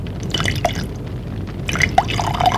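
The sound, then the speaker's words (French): Liquid pours from a bottle into two glasses in short bursts, with gurgling, splashing drips and bright trickling tones and no voices. “Il revient avec une bouteille et deux verres. Fait le service.”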